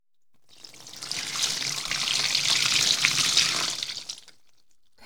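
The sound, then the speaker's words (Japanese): Tap water runs while hair is washed, a steady splashing hiss. It swells gradually, holds for a few seconds and then trails off to quiet. “頭を洗ってすっきりすれば、すぐに目が覚めますよ。では、行きまーす。”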